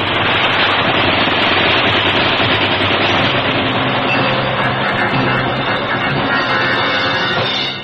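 Sustained enemy machine-gun fire in a wartime battle scene, a dense, loud, continuous rattle of rapid shots with no pauses that holds steady throughout and cuts off at the end.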